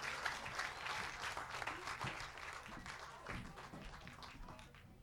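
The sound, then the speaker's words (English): Applause from an audience for a sister act: a steady, dense wash of many hands clapping together. It holds a fairly even level throughout and eases off slightly toward the end. “The Calloway sisters, give them another big hand. They deserve it.”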